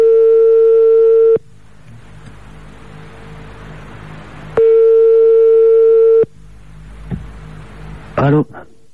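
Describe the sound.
A telephone ringback tone sounds on an outgoing call: two long, steady, mid-pitched buzzes separated by a few seconds of line hiss, with a brief click near the end.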